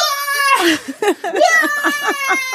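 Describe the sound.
A human voice imitates a dog yelling like a person instead of barking. It makes a run of loud, high, whiny cries whose pitch wavers and bends, broken by a few short gaps, with no other sound around it.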